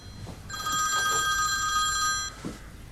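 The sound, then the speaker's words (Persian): A telephone rings with a single burst of steady, high, electronic-sounding tones that lasts about two seconds and is fairly faint, with low background noise before and after. “الان هم داره زنگ میزنه. همون جواب بده دیگه.”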